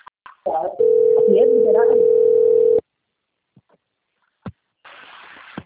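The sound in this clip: A telephone dial tone while a call is placed: one steady, even tone lasting about two seconds, followed by a few faint clicks and a short burst of hiss.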